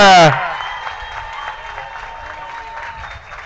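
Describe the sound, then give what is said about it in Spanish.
Applause for the winning bidder at a charity auction: a brief voice ends at the start, then moderate, steady clapping from a small audience continues at even volume. “Y el aplauso del ganador.”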